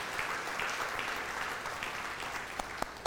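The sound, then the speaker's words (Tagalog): An audience applauds in church with dense, steady clapping throughout, and a few sharper single claps stand out near the end. “Palakpakan po natin ang Panginoon, mga kapatid.”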